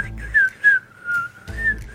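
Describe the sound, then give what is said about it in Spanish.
A person whistles a short, cheerful tune to imitate cyclists whistling as they ride along a bike path. It comes as a few clear, high sliding notes in separate phrases, with soft breathy noise between them. “yo escucho a los ciclistas cuando voy a veces por la ciclorruta y todos van silbando”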